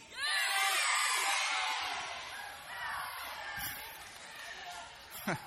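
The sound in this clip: An audience at a religious talk about Jesus and salvation cheers, whoops and shouts yay in a loud, sustained burst of mixed voices lasting about five seconds, fading slightly toward the end with a brief final peak.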